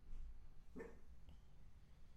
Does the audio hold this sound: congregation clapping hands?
no